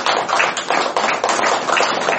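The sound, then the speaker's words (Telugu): Audience clapping at a meditation gathering, a dense continuous patter of many hands, steady and fairly loud with no talk over it. “ఎంత గొప్ప, ఒకసారి Muslims చప్పట్లు కొట్టాలి.”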